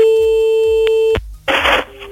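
A telephone line tone while a call goes out to a listener: one steady, loud, unbroken tone lasts about a second and stops abruptly. After a brief gap, a harsher, noisier burst follows.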